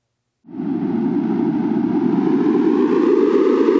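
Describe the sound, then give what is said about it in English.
A data sonification of ocean carbon outgassing at a coastal array off New England in the Atlantic: a dense, roaring synthetic noise that starts abruptly and holds steady, growing gradually brighter and slightly louder. “For this data nugget, outgassing will sound like this. The more gas that is released into the air, the more the sound will become louder and brighter.”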